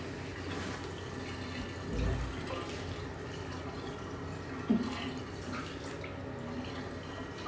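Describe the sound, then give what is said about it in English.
Water drains from a bathtub with a faulty seal, making a steady trickling rush with a couple of brief, slightly louder surges and no voices. “It sounds like it's draining. It is draining. I wish it wasn't. I can't stop it.”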